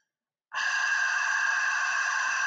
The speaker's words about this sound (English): You're going to breathe out for six like you're fogging up a mirror. So it would sound like this.